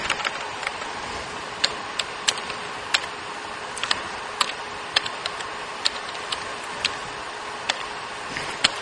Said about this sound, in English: This would help if I could type.